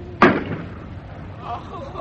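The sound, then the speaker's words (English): Cannon fired from a rolling ship: one sharp, loud blast that decays into a low rumble, followed by faint voices. “I can't aim properly with this rolling. Reload! Aim! Fire!”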